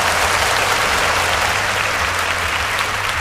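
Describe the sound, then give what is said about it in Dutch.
Steady applause for the day's callers to a phone-in show, a dense, even wash of clapping that holds at the same level throughout with no talk over it. “Weet je wat? Ik geef ze allemaal een applausje. Allemaal een applausje.”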